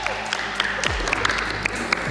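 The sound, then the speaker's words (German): An eighth-grade class at a Realschule claps and cheers after a correct answer in a geography quiz. The dense applause runs throughout, with sharp individual claps standing out. “Da gab es heute direkt Jubel, zu Recht.”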